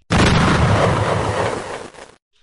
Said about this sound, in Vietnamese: trên đỉnh núi đã vang lên tiếng nổ rung trời.